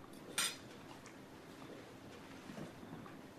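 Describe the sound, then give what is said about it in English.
A spoon set down at a meal of mulligan stew: a single soft, bright clink stands out once over a faint, steady background hiss. “He puts down his spoon.”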